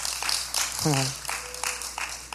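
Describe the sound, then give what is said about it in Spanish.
Audience applause at a church gathering, a continuous wash of clapping under a man's voice speaking over it throughout. “Un aplauso para Orlando, por favor.”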